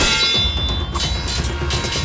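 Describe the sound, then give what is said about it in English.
Metallic clangs of a war hammer striking a giant's sword ring over a dense, noisy, continuous background, with a few sharper hits standing out. “Thor rushed forward, Mjolnir meeting Hrungnir's sword.”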